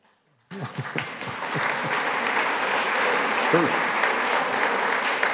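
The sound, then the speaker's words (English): Audience applause at a political conversation event in Travis County, bursting in after a brief silence and holding as a steady, dense wash of clapping, with a few voices calling out over it. “now, I'll note, it's even in the People's Republic of Travis County, they clap. Right? What's interesting is that's an applause line here now.”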